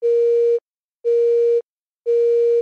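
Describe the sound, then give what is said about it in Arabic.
A telephone busy signal follows a line cut off during a radio call-in: three identical steady beeps, each about half a second long, evenly spaced about a second apart with silence between them. “معلش انقطع الإرسال إذا ناخذ اتصال آخر”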